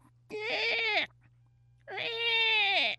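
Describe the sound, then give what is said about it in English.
A human voice imitates young birds calling for food with two long, drawn-out, whining calls separated by a short pause. Each call is loud and sustained and tails off at its end. “you'll start hearing the young calling for food, and they have a totally different call. They have a sound that goes something like,”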